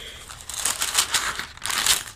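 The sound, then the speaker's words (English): A book page tearing, heard as a few crinkly, papery rips and rustles that come in bursts with brief pauses between them, moderately loud with no voices. “Now, oops. Did I tear my book? I did.”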